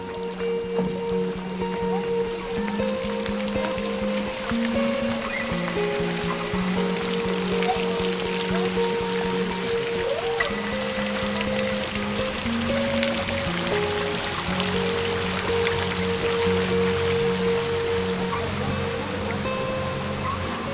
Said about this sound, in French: avec l'eau et cette résurgence. Là, nous avons contourné la plus grosse fontaine pétrifiante du jardin.